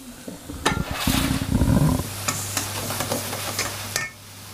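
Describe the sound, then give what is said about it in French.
Butter melts and sizzles in a pan of cooking apples, with a stretch of stirring and scraping early on. A soft hiss, low hum and scattered small crackles continue steadily afterward, fairly faint. “Là, on va attendre que les pommes cuisent. On entend un petit peu.”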